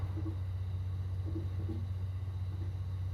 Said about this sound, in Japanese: このラウンジだと混ざってくるのはレールの継ぎ目を車輪が叩くジョイント音の繰り返しですけど、